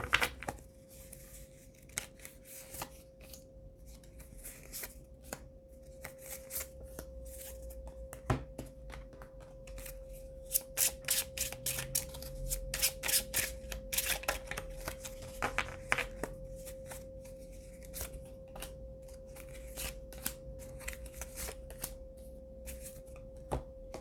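Tarot cards being shuffled and handled: many crisp, rapid riffling and slapping clicks in irregular bursts, fairly faint, over a low steady hum with no talk.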